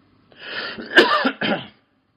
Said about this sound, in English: Excuse me, my throat is playing up.